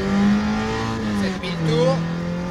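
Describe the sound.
Car engine revving hard through the gears toward 7000 rpm, a sustained, strained roar that dips briefly at a gear change and then climbs again, with the higher gear taking longer to wind up.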